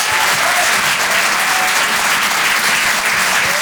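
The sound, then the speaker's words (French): Applause from a comedy club audience greeting a comedian: a thick, unbroken patter of many hands clapping at a constant, fairly loud level. “Je vous demande de l'encourager, faites du bruit s'il vous plaît pour Arthur sur Rire et Chanson.”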